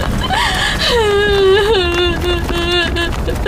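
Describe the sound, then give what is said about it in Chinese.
A person cries and wails in a loud, wavering, drawn-out tone that bends up and down, with sobbing breaks between the longer moans. “再哭也扶不过来啊。啊，别哭了”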